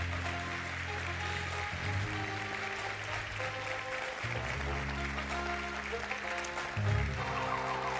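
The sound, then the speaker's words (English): An audience claps to welcome special guests, with dense, sustained applause filling all eight seconds at an even level and a slight swell near the end. “Will you give a great, big, hearty mountain welcome to our special guests, Will Hutcherson and Dr. Chinwe Williams?”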